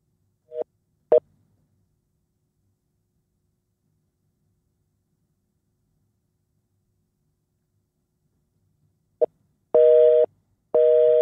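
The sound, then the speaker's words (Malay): A telephone busy signal on a voice call: a few short beeps, a long silence, then two sustained, loud tone bursts near the end, heard alone. “Ha, engage pula dia tengah bercakap dengan orang kan ni.”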